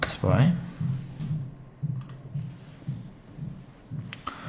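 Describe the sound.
Someone types on a computer keyboard while writing text into a web start page. The keys click quietly in an irregular run of taps, with short pauses between them.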